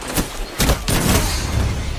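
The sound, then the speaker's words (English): Scout rifle gunfire in the video game Destiny 2: a few sharp, cracking shots burst out within the first second, followed by a steady, dense rumble of game noise to the end. “Or that's a scout rifle.”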